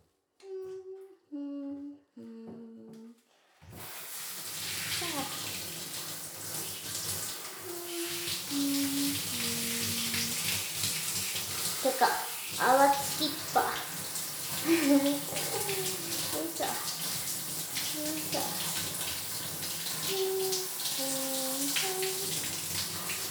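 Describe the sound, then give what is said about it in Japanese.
Hot water runs steadily to rinse a sticky body clean, a continuous loud rushing that lasts about twenty seconds. A few short electronic tones sound just before it starts. “ベタベタになっちゃったし、お湯で流すか。”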